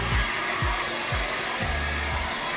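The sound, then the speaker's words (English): A hair dryer blows hair with a loud, steady whooshing roar and motor whine, and the low end swells and dips every half second or so. No one speaks. “What are you doing? I'm blow drying my hair.”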